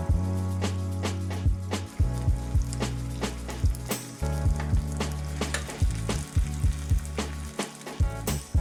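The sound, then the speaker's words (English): Tofu steaks sear in a hot pan as a spatula presses down on them, giving a steady, loud sizzle broken by many short scraping clicks and taps from the spatula. “Let's add our tofu steaks into the pan. And now using a spatula, we're gonna push on each tofu steak for about 30 seconds. That way we can get that beautiful sear.”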